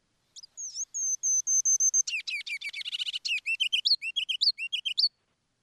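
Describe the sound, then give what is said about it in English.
Song of a very tiny bird migrating north to nest in Canada: high, thin whistled notes, then a rapid stuttering run of chirps and a string of short, sweet rising and falling phrases, quiet and alone. “It is a very tiny bird. They're going all the way up into Canada to nest, so it's about 3 weeks that they're passing through here, and then they move on. And we've got that song Tyler has.”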